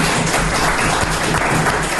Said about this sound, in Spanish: un aplauso aquí para el creador, el que ha tenido la idea de Por qué Podcast, el señor Jorge